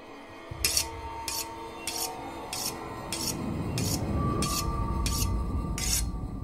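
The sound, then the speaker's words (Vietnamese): A knife is sharpened on a whetstone in many regular rasping strokes with a steady rhythm, over a low rumbling drone that grows louder partway through. “Một thoáng, tiếng mài dao ấy lại mơ hồ chuyển sang bên chính ở giữa gian nhà, chỗ đặt quan tài của bà cụ Ngạc.”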